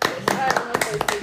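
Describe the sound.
Brief clapping as an audience applauds the men, a few sharp hand claps mixed with people talking, short and moderately loud.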